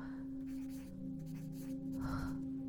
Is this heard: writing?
yes

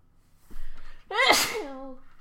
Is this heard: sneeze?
yes

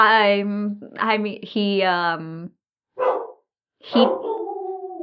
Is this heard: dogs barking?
yes

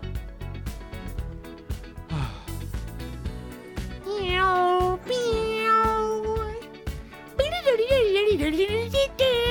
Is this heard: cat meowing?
yes

